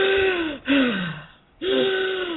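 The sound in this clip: A voice imitates the heavy, labored breathing of climbers trekking uphill under big backpacks. It gives loud, rasping, voiced breaths that fall in pitch, with a short pause before the last one.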